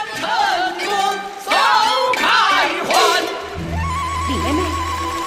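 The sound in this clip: Chinese opera music performed in public: wavering, high sung or instrumental lines with sliding pitch, followed by a steady held tone over a low sustained drone.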